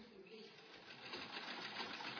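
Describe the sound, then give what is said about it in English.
Sewing machines run in a clothing sewing shop, a faint, steady mechanical whir with a fine rapid chatter that holds continuously, slightly louder toward the end. “But in the hands of the right person, these machines can do the job. Quietly and efficiently, the ongoing work of the sewing shop keeps our children well clothed.”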